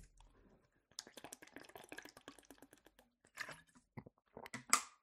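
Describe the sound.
Someone drinks a little water, making faint wet clicks and swallowing sounds in quick irregular bursts separated by short pauses, with no talk.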